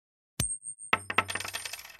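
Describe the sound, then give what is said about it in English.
Two chaos coins from a tabletop game are flipped: a sharp metallic ping rings out, then after a short pause a coin lands with a clatter of quickening, fading bounces and rattles. “I have two chaos coins, and I'm gonna flip heads on both of them.”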